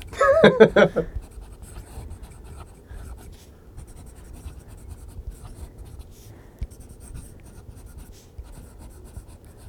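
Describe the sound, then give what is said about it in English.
A pen scratches across paper in a soft ASMR-style sequence of close, delicate strokes. A short burst of voice comes at the very start, then quiet scratching continues alone. “Good ASMR. Hold on, I'll do a little more. That is great. What should I write? Tell me bad words to write.”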